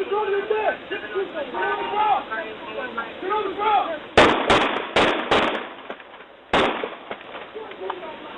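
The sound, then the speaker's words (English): Gunfire from police dash cam footage in Miami Gardens as officers open fire: after a man speaks, a rapid run of sharp, loud shots cracks out, followed by one more after a short pause. “The other sound is from police dash cams in Miami Gardens, where police officers ordered a mentally ill black man to get on the ground before white officers opened fire in February and killed 25-year-old Laval Hall.”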